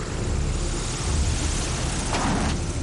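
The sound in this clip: An airplane comes in to land on a runway, its engine giving a loud, continuous, even roar that fills the whole short stretch.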